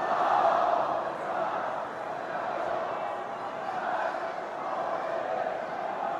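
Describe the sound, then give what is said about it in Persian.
A crowd loudly recites salawat, a religious blessing, in unison: a sustained mass of voices that swells and eases slightly but never breaks off. “صلوات بفرستید. صلوات دوم را بلندتر بفرستید.”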